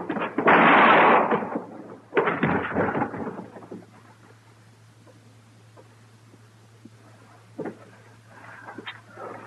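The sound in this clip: Gunfire breaks out in a Western gunfight: two heavy, booming blasts follow one another closely, each loud and rumbling, and then give way to quieter scattered sounds.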